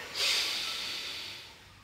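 A single slow, deep inhale through the nose during a yoga breathing exercise. The soft, breathy hiss swells quickly, then gradually tapers off, faint and alone.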